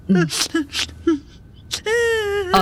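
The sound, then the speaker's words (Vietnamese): A girl crying: several short, choked sobs and whimpers, then a long, high, sustained wail, with one more sob at the end. Loud and close, with no other sounds. “Còn khóc nữa hả? Đủ rồi, nín chưa?”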